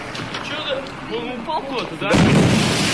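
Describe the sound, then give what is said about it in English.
A sudden, loud booming blast from an object streaking through the air hits about two-thirds of the way in and rolls on as a heavy rumble to the end, after people talk over quieter background sound. “So that's the explosion of this thing just streaking through the air.”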